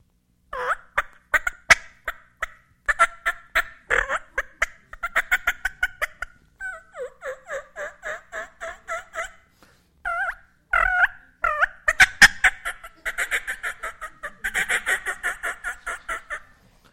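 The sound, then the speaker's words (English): Turkey calling made by mouth with a latex diaphragm call: many short, high, rhythmic yelping notes come in runs separated by brief pauses, loud and alone without talk. “So I have these three little diaphragm calls, okay? And I'm going to resist the urge to tell you who makes them and what they are, but these are the best turkey calls on earth,”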